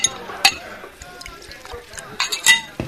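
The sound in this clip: Ice chinks against a glass as a double bourbon on the rocks with a twist of lemon peel is poured, a few bright clinks standing out over low, scattered clatter.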